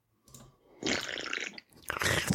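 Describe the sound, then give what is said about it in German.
A few wet sips and gulps come from a bottle of beer, soft swallowing and squishy mouth noises in short bursts with brief pauses between them. “Ich habe noch einen Schluck in einem meiner zwei Biere. Momentchen.”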